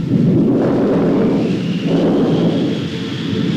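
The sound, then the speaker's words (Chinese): Deep rolling thunder before a storm, a loud sustained low rumble that fills the whole stretch, easing slightly partway through before swelling again. “暴风雨要来了。”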